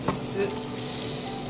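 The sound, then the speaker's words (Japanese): Fried eggs and sausages sizzle in a pan with a steady, bright crackling hiss that continues throughout, with no talk. “目玉焼きが焼けました目玉焼きと、えー、ウインナーもねそろそろ焼けてきたかなっていう感じ”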